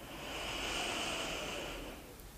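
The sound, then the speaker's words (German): A single deep inhale taken during a guided grounding meditation: one steady, airy breath drawn in for about two seconds, soft and fairly faint, rising gently then easing off. “Nimm einen tiefen Atemzug, atme tief ein.”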